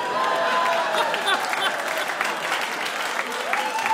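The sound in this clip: A public radio quiz show audience applauds: loud, sustained clapping with a few whoops and cheers mixed in, holding steady for several seconds.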